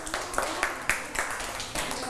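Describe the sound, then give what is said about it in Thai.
Classmates clapping for a pupil in a primary school maths lesson: a faint, steady series of claps in an even rhythm, each sharp and evenly spaced. “เก่งมากค่ะปรบมือให้เพื่อนหน่อยค่ะ”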